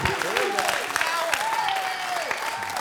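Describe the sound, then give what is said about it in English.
Church audience applauding and cheering to welcome their pastor onstage, a dense, continuous wash of clapping with voices rising through it. “I need y'all to give a loud and proud Elevation Nation welcome to my pastor, your pastor, Pastor Neil Grayhouse. Come on, somebody. Come on. There we go.”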